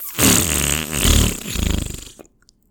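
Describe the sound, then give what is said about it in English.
A fart noise played by a smart speaker on request: one long buzzy, sputtering blast lasting about two seconds. It wavers in pitch, breaks into rapid fluttering pulses toward the end, then cuts off abruptly. “We asked for a fart noise. We got a fart noise.”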